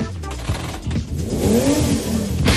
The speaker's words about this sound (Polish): To samochód z 32-zaworowym silnikiem Ferrari V8.